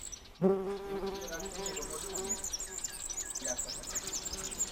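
Bees buzz at a beehive on a calm early morning, a faint, steady hum with thin bird chirps over it throughout.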